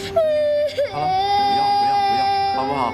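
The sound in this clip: A child cries loudly in sustained, high, wavering wails with brief catches and sobs. The crying continues without pause through the whole stretch.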